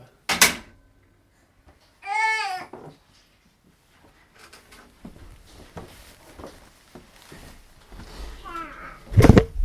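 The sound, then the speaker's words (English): Baby gate being opened and closed, giving sharp clacking latch sounds near the start and again at the end. A baby's babbling vocal sounds and soft, faint rustling and handling noises fill the quieter stretch between them. “We're going to play with the gate.”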